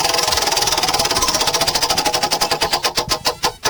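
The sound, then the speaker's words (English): Rapid, even ticking of a prize wheel being spun by hand, the clicks gradually spreading apart and slowing toward the end as the wheel loses speed. “Let me spin this wheel. Come on here.”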